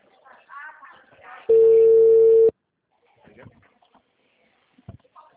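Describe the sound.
A phone call's ringing tone sounds once as a loud, steady electronic beep lasting about a second. Quiet talk comes just before it, and faint voices follow.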